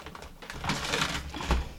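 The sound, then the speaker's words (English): Pen scratching on paper as someone writes a short note by hand: continuous dry, scratchy strokes of varying loudness, with a slightly stronger stroke near the end. “Okay, so I'm writing myself a little note.”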